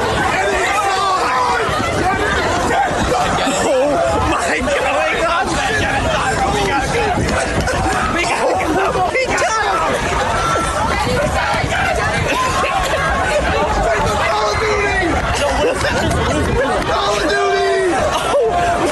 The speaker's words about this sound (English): That is the sound of the boardwalk at the Jersey Shore over the weekend.